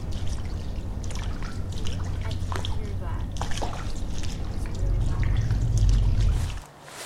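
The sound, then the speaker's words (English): Sloshing, trickling water made as a sound effect for footsteps on water, a steady wet churn throughout with a low rumble swelling near the end before it cuts away. “I'm trying to create a scenario here where maybe we're walking on some water.”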